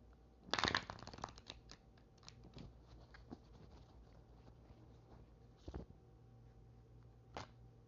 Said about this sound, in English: I want to pull some cards of like how day 30 is going to be for me.